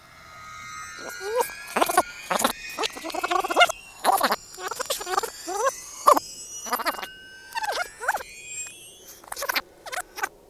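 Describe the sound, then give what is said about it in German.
Audio tape being rewound, giving many rapid squeaky chirps of sped-up voices in quick, uneven bursts, high-pitched and chattering throughout. “fahren Sie das Band zurück.”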